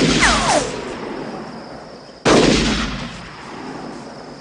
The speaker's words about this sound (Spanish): Están disparándonos.